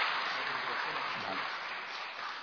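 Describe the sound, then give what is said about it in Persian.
An audience applauds in a church service for Jesus Christ, a dense, continuous wash of clapping that holds steady and fairly loud from start to finish. “اگه اجازه بدید همه ما با هم دست محکمی برای خداوندمون عیسی مسیح بزنیم”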